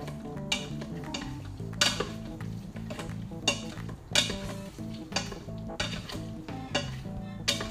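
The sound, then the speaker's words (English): Stirring a sticky rice mix in a pan, with irregular scrapes and metallic knocks of a utensil against the pan over a faint sizzle, many sharp clatters spaced unevenly. “At this point, I'm just stirring everything around and it's just keeping warm.”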